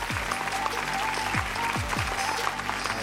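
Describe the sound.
Dense, steady applause and scattered cheers from a church audience welcoming a pastor to the stage to close a speaker series, with low sustained music notes beneath the clapping throughout.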